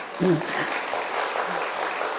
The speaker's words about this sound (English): Now clap for yourselves.